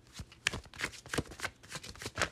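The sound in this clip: Tarot cards slide and shuffle softly off a deck, a quick uneven run of faint papery flicks and snaps.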